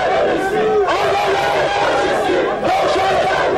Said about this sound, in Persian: و در همین حال انصار حزب الله در مقابل سفارت آلمان در خیابان فردوسی دست به تظاهرات زدند.